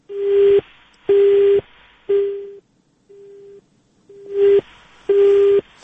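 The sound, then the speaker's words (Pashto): A telephone busy tone sounds after a dropped call: six steady, low beeps roughly a second apart, most of them overlaid with crackling line noise and one noticeably fainter. “فکر کوم الیاس دای سره زمونږ تلیفوني تماس قطع شوی دی.”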